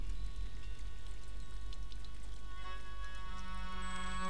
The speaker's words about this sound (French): Installé en sécurité sur le bord du bassin, devant toi coule l'eau.